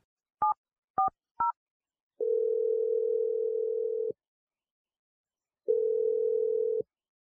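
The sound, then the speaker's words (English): Telephone dialing: three short keypad beeps, then two long, steady, humming tones separated by a silent gap. “I'm going to dial Erica's number.”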